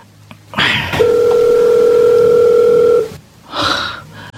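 A telephone dial tone sounds while a call is being placed: one steady, unbroken mid-pitched tone held for about two seconds, with brief rustling handling noise just before and after it.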